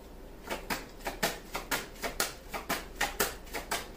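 Cards handled during an astrology-style love reading: a steady run of many soft, papery slaps, roughly two per second, each a short crisp burst over a faint low hum, with no voices.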